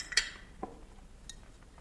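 Dinner plates clink faintly as a chipped plate is swapped at a table, with one brighter clink near the start and a few softer knocks after.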